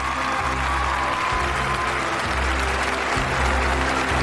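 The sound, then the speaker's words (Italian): Applause from a crowd: dense, continuous clapping that stays loud and even throughout, with a faint low rumble underneath. “applausi stucchevoli.”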